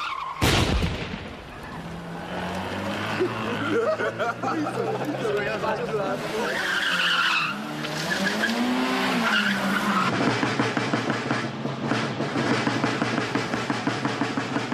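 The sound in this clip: Car tyres skid and squeal as joyriders drive vehicles hard, a loud, continuous roar of engine and rubber with wavering squeal tones through the middle and voices mixed in beneath.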